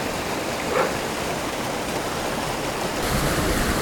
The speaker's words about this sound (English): Now, aside from Panther Creek Falls, this is one of the nicest waterfalls I've been to.